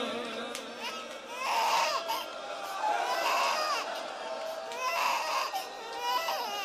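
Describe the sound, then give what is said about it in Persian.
A baby cries in loud, repeated wails that swell and ease several times over a murmur of voices in the background. “بچه وقتی گریه کنه سخت ساکتش کنم. عزیزم آروم”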